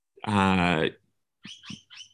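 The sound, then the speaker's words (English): Birds calling outdoors: a long, tonal call is followed after a pause by three short, quick chirps. “There's the birds. I'm outside at the moment.”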